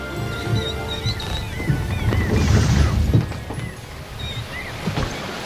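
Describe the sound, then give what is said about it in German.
A sailing boat sets out over ocean waves, with water sloshing and splashing against the hull over a low rumbling wash. Thin, high chirping cries come and go above it. “Zwei Stunden später setzten sie die Segel, um die Rückfahrt nach Kirin anzutreten.”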